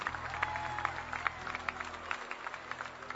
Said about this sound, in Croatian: Veliki aplauz za malu decu u publici.